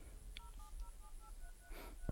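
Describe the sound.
Telephone keypad dialing tones ring out as a rapid run of short, evenly spaced beeps of differing pitch over low background noise, ending in a brief dull knock.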